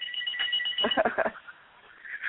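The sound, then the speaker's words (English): A telephone rings with a few trilling, muffled bell bursts that rise and fade over a faint hiss, with no talking. “Ignore that phone. You don't hear that.”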